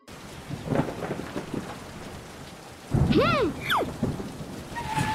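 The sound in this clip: Rain during a thunderstorm, a steady dense hiss on surfaces, joined midway by a louder rumbling surge of thunder that swells the noise, with no voices.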